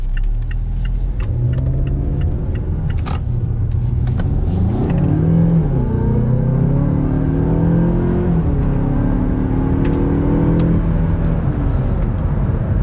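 A 2020 Mazda 6 car is driven, its engine a steady droning hum whose note climbs and shifts a few times as it accelerates, with no talking throughout.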